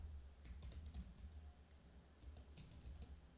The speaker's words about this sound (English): I typed in John Adama.